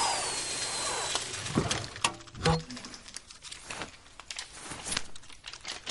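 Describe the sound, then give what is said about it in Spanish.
Mechanical whirring and crinkling as a film reel is run through a film machine, a busy rustling clatter with a few sharper knocks and short tonal hums, moderately faint throughout. “Toma una cinta de película y la pasa por una máquina.”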